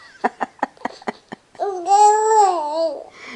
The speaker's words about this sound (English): You know, she says right there, it sounds so much like go away, one of the sounds she makes.